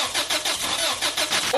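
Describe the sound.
A car engine cranks over without catching, a rapid, even run of loud starter pulses that fills the whole short clip with no voices.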